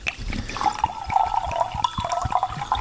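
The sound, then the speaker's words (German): Rosé wine is poured into a glass with a continuous burbling, gurgling liquid sound that has small uneven splashes throughout. It is moderately loud and no one talks. “So, wir füllen mal ein.”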